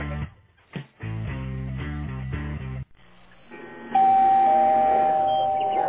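A doorbell chime rings out in a string of clear, bright tones. It ends on a loud, held note, with no talk over it.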